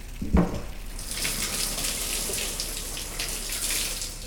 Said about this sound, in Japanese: 最後に肩から背中にかけてお湯を流します。